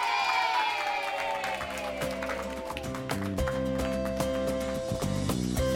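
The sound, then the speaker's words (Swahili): A group of students clapping and cheering for themselves in a dance class: many quick, uneven claps under loud sustained voices that carry on throughout. “Tujipigie makofi tena.”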